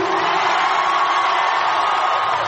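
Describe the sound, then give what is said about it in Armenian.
Loud, steady crowd roar and cheering from thousands of people gathered in a Los Angeles park to greet Armenia's prime minister, a dense unbroken wash of voices with no pauses. “Լոս Անջելեսի և հարակից քաղաքների հազարավոր հայեր եկել էին լսելու Հայաստանի վարչապետին, բուռն ծափահարություններով, վանկարկումներով նրան դիմավորեցին”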